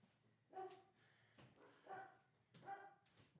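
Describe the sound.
Dogs bark in three faint bursts of rough, mid-pitched woofs, with a low murmur between them.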